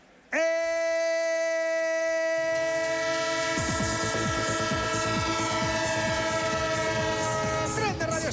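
A train sounds a long, steady horn, and its wheels on the rails soon join in with a rhythmic clickety-clack as it passes. The horn holds almost to the end before cutting off.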